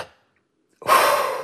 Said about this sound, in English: when they take a deep breath to exhale into that spirometer to do their lung capacity test, would kind of go like this.